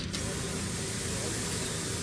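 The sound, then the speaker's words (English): Industrial laundry machines run in a prison laundry, a steady, unbroken whooshing hiss and roar that holds an even level from start to finish. “Picture your standard run-of-the-mill laundromat, but on steroids. It's loud, it's busy, and the machines are humongous.”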